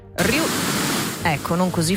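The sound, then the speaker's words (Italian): Pink noise played as a bedside sleep aid, a steady, full-bodied hiss that starts abruptly and runs continuously, with a voice talking over it in the second half. “Ora io ve lo faccio sentire il rumore rosa, che suona più o meno così”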